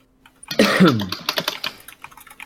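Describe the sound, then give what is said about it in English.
Typing on a computer keyboard comes through an online voice chat: a short burst of sound at the start, then many quick, irregular key clicks at moderate loudness. “Jeez, who's using the typewriter?”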